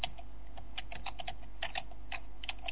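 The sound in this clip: Many quick, irregular key clicks from a computer keyboard as a command is typed at an MS-DOS prompt; the taps are fairly faint and come in short bursts with brief pauses, and no voices are heard.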